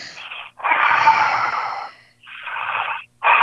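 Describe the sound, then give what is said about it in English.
A deep breath drawn in and let out during a guided healing prayer: a long, loud, airy inhale followed by a slightly shorter exhale, framed by the edges of other breaths, with no talk. “And take a deep breath in and out.”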